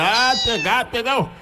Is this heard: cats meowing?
yes